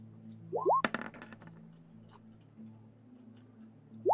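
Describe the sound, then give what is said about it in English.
A short clatter of dice, a few quick clicks tumbling off the map in a tabletop role-playing session. A brief rising tone comes just before, over a faint steady low hum. “The dice that just fall off the side of the map.”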